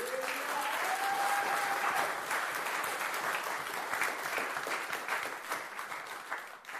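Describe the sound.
An audience applauds during a French-language church service, many hands clapping in a dense, sustained roar for nearly seven seconds before easing slightly at the end. A voice calls out briefly over the clapping early on.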